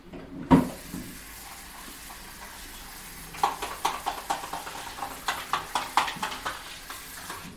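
Tap water runs over pieces of meat in a bowl as they are rinsed, a steady watery wash that turns into many short, splashy knocks and sloshes in the second half as the meat is handled.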